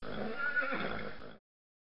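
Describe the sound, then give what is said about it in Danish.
A horse whinnies in one loud, shaky neigh lasting under a second and a half, then it cuts off abruptly into silence. “En hest kommer hen til Geo og puffer ham på ryggen.”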